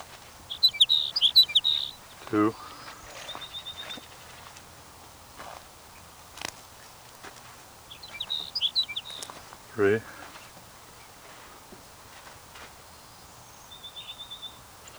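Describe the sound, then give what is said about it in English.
Sage sparrow song, short high twittering phrases repeated a few times at spaced intervals, with fainter chirps between and a person speaking briefly. “Your sage sparrow number 5.”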